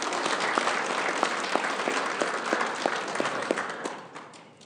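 Audience applause, a dense steady patter of many hands with a few distinct louder claps ringing out, holding for about four seconds before fading away at the end.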